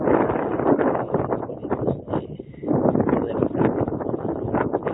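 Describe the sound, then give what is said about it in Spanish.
Strong wind blowing across the microphone, a loud, low, rumbling buffeting roar that surges in gusts, dips briefly, then builds again. “Está fuerte el viento.”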